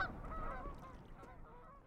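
Geese honking at a pond: a steady, fairly loud chorus of overlapping honks and calls that carries on through the whole stretch with no talk.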